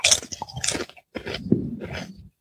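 Crunchy chewing as someone tastes a snack made with rosemary, two short bursts of loud, brittle crunching separated by a brief pause.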